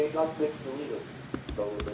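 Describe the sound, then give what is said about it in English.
Keys clacking on a computer keyboard as a file name is typed, a few quick light clicks near the end that follow a voice speaking at the start. “So what I've done is I've typed in Best in Tech, The Outsiders.”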